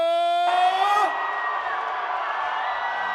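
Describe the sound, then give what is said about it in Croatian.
A crowd screams and cheers for a singer of folk and tavern hits at a packed concert hall. A loud, drawn-out voiced shout opens, then a dense, sustained roar of screaming continues steadily. “Da vas čujemo, najveći vrisak za našeg kralja”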